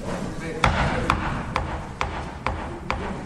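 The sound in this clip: A foot taps steadily to keep the beat during a musical demonstration, giving six evenly spaced thumps over a dense background with talking.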